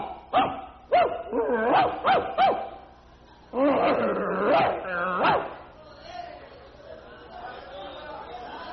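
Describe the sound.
A man's voice imitates a barking dog during a church sermon: a few sharp, yappy barks, then a longer burst of growling, whining dog-like sounds, fading into quieter vocal noises.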